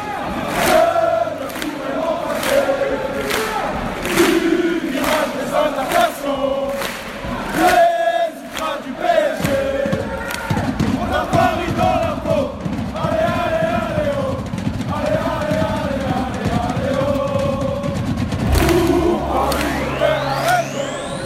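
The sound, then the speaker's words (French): PSG supporters chant in the Virage Auteuil stand at a football match: dense, continuous massed singing, loud throughout, punctuated by regular sharp beats. “au risque d'en perdre, il faut bien le dire, la raison, comme le chantent les supporters du virage Auteuil.”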